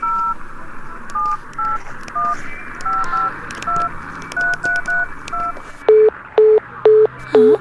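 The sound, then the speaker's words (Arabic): Touch-tone telephone dialing, a quick string of many short two-tone beeps, followed by four loud, evenly spaced lower-pitched busy-signal pulses showing the line is engaged. “مستحيل، لا يزال الخط مشغولا.”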